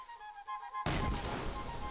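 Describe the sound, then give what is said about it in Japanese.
Cannon fire from a fort during an attack in a tale of Caribbean pirates: one sudden, heavy boom that carries on as a dense, rumbling roar. “ラビュズは砦から散々に砲撃され”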